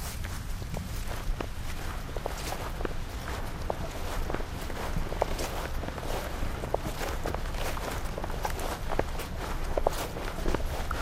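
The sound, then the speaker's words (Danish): Footsteps of several people walking in a row through a forest, one of them in sandals on increasingly wet ground, a steady stream of many soft, crunching steps with an uneven overlapping rhythm. “Roen breder sig, mens vi går der på en række i skoven.”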